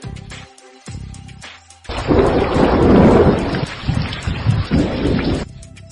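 Heavy thunder rumbles loudly overhead in a rainstorm, a long, deep roll that swells and lingers for several seconds over steady rain.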